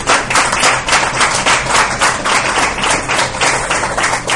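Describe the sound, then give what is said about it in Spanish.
Sustained audience applause from a studio crowd welcoming a guest onto a talk show about paranormal cases, with dense, steady clapping that holds a loud, even level from start to finish. “Alfonso Moreno, al que voy a pedir otro fuerte aplauso para él.”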